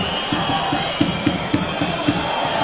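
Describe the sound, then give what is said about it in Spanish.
Football stadium crowd protesting a referee's decision, a loud roar of voices with a regular rhythmic pulse of chanting or stamping beats running through it. “Ya el público se le echa encima a cualquier decisión arbitral.”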